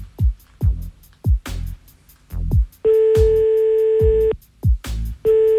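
Telephone ringback tone while a call is placed again: steady, even tone bursts switch on and off amid repeated dull low thumps, loud and without talk.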